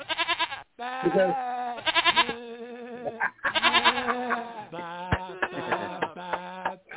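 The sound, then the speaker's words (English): Voices imitate lambs bleating, giving many wavering, nasal 'baa' calls in quick, overlapping bursts. The calls vary in pitch and are loud throughout. “Ba ba ba ba ba. We're lambs. Ba ba ba ba ba. We're lambs.”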